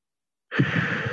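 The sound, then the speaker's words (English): A deep cleansing breath is taken during a guided centering moment. After a brief silence, one long, breathy rush of air sounds alone. “Let's take another deep cleansing breath.”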